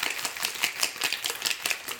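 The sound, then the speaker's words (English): A cocktail shaker packed with ice and whole ginger slices is shaken hard, giving a quick run of bright, clattering rattles in a steady rhythm that lasts the whole clip. “You want to really shake it because you got those whole slices of ginger in there.”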